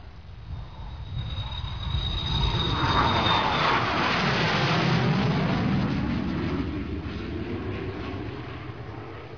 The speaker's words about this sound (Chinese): 飞机很快就要起飞了，请您坐好，系好安全带，收起座椅靠背和小桌板。